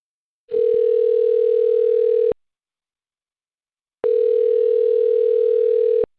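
Telephone line tone while placing a call: two long, steady, even tones, each close to two seconds, separated by a silent gap, with no voices.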